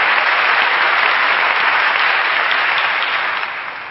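A church audience applauds a song on Reformation Sunday, with dense, continuous clapping that holds steady and then fades off near the end.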